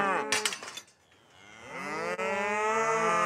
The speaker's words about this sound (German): Die Herde um Bernie kommt Isa immer näher.